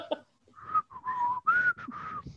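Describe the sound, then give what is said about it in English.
A person attempting to whistle produces a breathy, unsteady whistle: several short tonal bursts with gaps between them, wavering in pitch rather than forming a clean tune. “I'm trying to whistle and I can't.”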